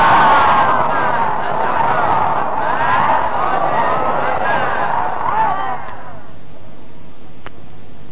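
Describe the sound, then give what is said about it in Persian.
A crowd at a religious gathering chants a salawat in unison, a loud sustained mass of voices that holds steady for several seconds, then drops away and leaves near quiet. “یه صلوات دیگه هم بلندتر خط کن.”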